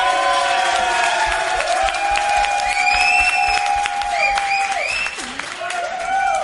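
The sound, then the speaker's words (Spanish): Cheering voices and steady applause from a crowd at a restaurant in Tres Cantos, with high, bright whoops rising over dense clapping that fades slightly toward the end. “ya han hecho ruido antes, pero por favor, que se manifieste toda esa gente que está aquí.”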